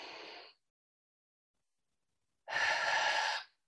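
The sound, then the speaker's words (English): Breath sounds from one long deep breath: a short airy breath fading out at the start, a pause of near silence, then a fuller breath lasting about a second, soft and with no talking. “One long breath, just one breath.”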